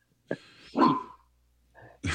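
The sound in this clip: A dog gives a few short vocal bursts: a sharp yip, then a brief, wavering whine-like cry, followed by quieter sounds, over a faint low hum.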